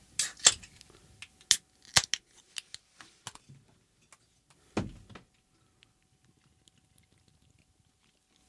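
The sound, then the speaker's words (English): Cans of Iron Maiden Trooper Premium British Beer, one-pint size, being cracked open: several sharp clicks and snaps, then one louder burst with a brief rush, followed by faint scattered ticks. “a four-pack of Iron Maiden Trooper Premium British Beer. Hello. One-pint cans. What do you say we crack these babies open and see what they taste like, all right?”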